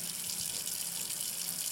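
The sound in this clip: Hands being rinsed under running tap water at a sink during hand washing. A steady, hissing stream flows without a break, soft and even for the whole moment.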